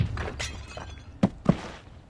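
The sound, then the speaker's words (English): A thrown potted plant strikes a woman: two sharp impacts in quick succession, a solid thud followed by a cracking, shattering hit, standing out above a low, muffled background. “A potted plant came flying out of nowhere and cold cocked her.”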